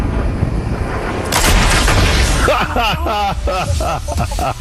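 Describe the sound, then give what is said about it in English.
Gunfire in the video game Fortnite: loud, dense bursts of shots and blasts run throughout, with voices over the second half. “I'm going to shoot him if he stops for even 1 second.”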